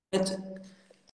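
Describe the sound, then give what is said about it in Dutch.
A person coughs once during a conversation, a short harsh burst that fades into a brief voiced tail. “dat gehoest dat is een beetje vervelend”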